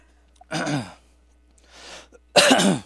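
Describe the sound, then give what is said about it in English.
Throat clearing: two harsh, loud rasping bursts with a softer breathy rasp between them, alone without talk. “excuse me, I got a little frog in my throat.”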